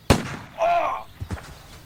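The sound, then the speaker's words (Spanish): A shotgun fired during a hunt in an audio drama: one sharp, loud blast at the start, followed by quieter sounds and a few faint knocks. “¡Le he dado a un peón! ¡Qué estupidez ponerse frente a las escopetas! ¡No disparen! ¡Hay un herido!”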